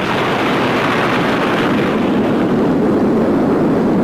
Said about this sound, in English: After 45 seconds of unearthly silence, will come the sound of the blast and its shock.